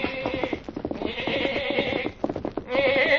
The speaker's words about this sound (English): Little boy is trying to mount his pony, holding a black lamb in his arms.